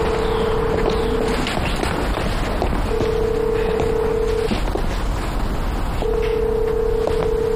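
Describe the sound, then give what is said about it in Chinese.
A telephone line tone sounds on a call that fails to get through, heard as three steady, even-pitched tone pulses separated by gaps, over a constant rumbling background noise. “您好，您拨打的电话正在通话中，请稍后再拨。 还是打不通。”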